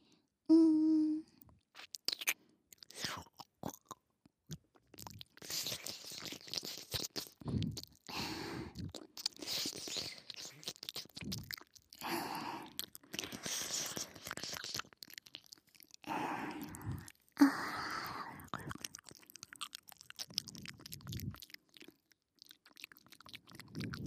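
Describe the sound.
Chewing and crunching of a lightly salted snack, with many irregular crisp bites and mouth sounds following one another in an uneven rhythm, some louder than others, with no talk.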